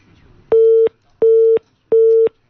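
A telephone busy tone after a call is hung up: three identical loud beeps at a steady pitch, evenly spaced with short gaps.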